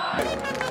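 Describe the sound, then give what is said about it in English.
Roar of a packed crowd at a football match in Aleppo, a brief, dense and steady wall of many voices shouting together with no break. “The roar of this crowd isn't just about the game.”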